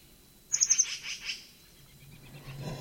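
Call of a longquist bird in the distance, a faint, quick burst of several high chirps that trails off into softer notes over low background noise.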